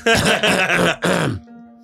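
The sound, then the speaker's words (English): Someone clears their throat during a tabletop role-playing game session, a couple of loud, rough voiced bursts in quick succession that trail off into quiet. “oh, somebody's clearing a throat again.”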